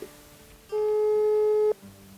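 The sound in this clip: A steady telephone line tone sounds while a listener is being called: one flat, unbroken electronic tone holds for about a second and then cuts off abruptly.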